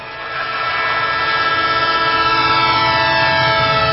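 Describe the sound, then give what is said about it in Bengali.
Train departing from a station: a loud, continuous rumble with a sustained tonal drone layered on top, swelling slightly at the start and then holding steady. “এদিকে train ছেড়ে দিচ্ছে”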